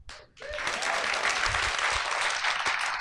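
An audience claps to welcome two guests on stage. After a brief quiet start, the applause swells quickly and holds dense and steady to the end.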